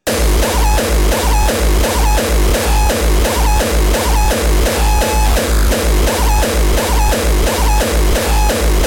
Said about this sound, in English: Does your drum machine sound like this?